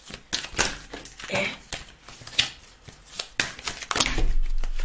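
A deck of cards is shuffled during a card reading, giving many rapid, crisp clicks and papery flutters in irregular bursts, growing a little louder toward the end.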